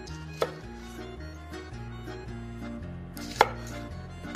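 Knife chopping shallots on a cutting board, two sharp, distinct knocks about three seconds apart, over steady background music.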